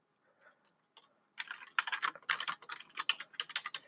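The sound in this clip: Typing notes on a computer keyboard: a few isolated clicks, then a fast run of many light, quick keystroke taps, quiet and unaccompanied by voices.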